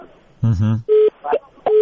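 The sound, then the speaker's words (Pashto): Flat electronic tones on a telephone line cut off during a radio call-in show: two steady mid-pitched beeps, separated by short bursts of voice. “ستاسو ټلیفون قطع شو خو خیر پیغام به مو شاید هم داو”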